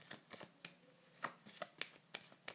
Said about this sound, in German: Also ich mische noch mal, weil die genau gleiche Kombination hatte ich schon mal.